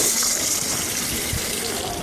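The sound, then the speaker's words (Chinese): Water runs from a tap as hands are washed during a handwashing demonstration, a constant broad gushing hiss that stays at an even level throughout, with no talk. “那正确的洗手到底该怎么洗呢？”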